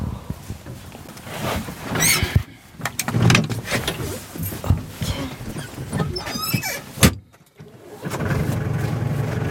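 A car engine starts and the car drives off as hunters head out to a deer enclosure. Sharp clicks and knocks come over rough engine noise, then a brief drop before a steady, loud running drone through the end.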